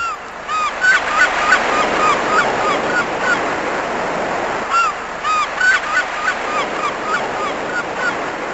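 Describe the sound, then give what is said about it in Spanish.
Waves of the Cantabrian Sea wash in a steady, broad roar that swells and eases, with a few short honking bird calls rising above the surf. “¿Sienten las olas del Cantábrico?”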